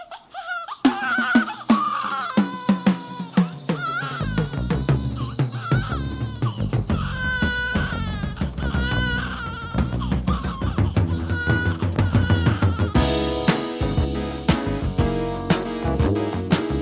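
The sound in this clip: A baby girl cries after waking from a nap, with many short, high, wavering whimpers and wails repeating throughout.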